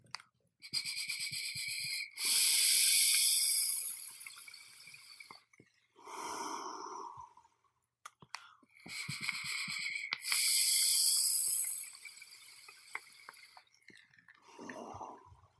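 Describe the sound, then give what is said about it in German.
Vaping Flavor Art Tuscan liquid on an Emmet 25 atomizer at 40 watts: two long draws with a bright, hissing airflow whistle, each followed by a softer breathy exhale. “ich dampfe jetzt einmal eine Kostprobe für die von Flavor Art Tuscan aus dem Emmet 25 bei 40 Watt”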